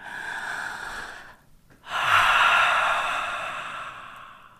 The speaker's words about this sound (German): Also atme tief ein und aus.